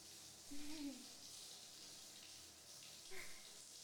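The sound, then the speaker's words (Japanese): Hot water runs from a tap into a bathtub as a faint, steady hiss that continues evenly throughout, with a couple of brief soft sounds rising above it. “じゃあ、お風呂にお湯を。これかな。あっ、出た。”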